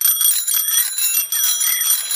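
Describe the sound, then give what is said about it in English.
Two bicycle bells ring together in a rapid, continuous, bright, high-pitched metallic trill that stays loud and unbroken throughout. “Freddy Fox now has two bicycle bells.”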